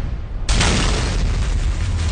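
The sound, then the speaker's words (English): A dynamite explosion bursts in suddenly after a short stretch of low noise, a loud broad boom that turns into a sustained, heavy rumbling roar lasting to the end. “Boom goes the dynamite. Boom goes the dynamite.”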